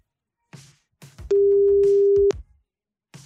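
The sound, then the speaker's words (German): Ringback tone of an outgoing telephone call to a line in Anhalt-Bitterfeld: one steady, low, humming tone lasting about a second, surrounded by faint rustling and brief noises. “es müsste im Osternimburger Land in Anhalt-Bitterfeld bimmeln.”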